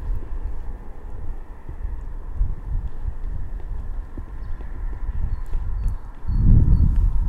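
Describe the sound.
Hoofbeats of a horse galloping and jumping through a series of jumps, a steady run of dull, low thuds over rumbling background noise, ending with a louder, heavier burst of impacts.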